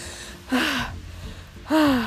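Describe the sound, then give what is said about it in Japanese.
Heavy panting from someone worn out after shoveling heavy snow: two loud, breathy gasps with a voiced tone, separated by a quieter stretch of ragged breathing. “息が上がります”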